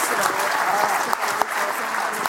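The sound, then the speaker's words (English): A round of applause from an audience: dense, even clapping throughout, with a few sharper individual claps standing out from the steady patter. “All right, everyone, round of applause for everybody.”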